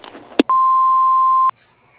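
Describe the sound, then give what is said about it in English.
An answering machine beep sounds before a caller leaves a message: a brief click, then a single steady, mid-pitched electronic tone lasting about a second, followed by near silence. “we aren't home at the moment, but you may leave a message after the beep.”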